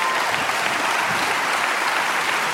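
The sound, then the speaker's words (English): An audience at a church claps steadily in warm, continuous applause welcoming a guest pastor, the dense patter holding even throughout with no voices over it. “So if you would make a little bit of noise at all of our churches and welcome Pastor Levi Lusco.”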